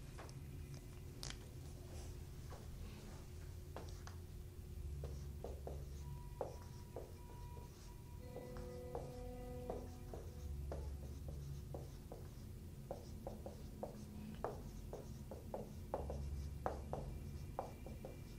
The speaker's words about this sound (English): Now, I'm on purpose writing it so you'll actually pay attention.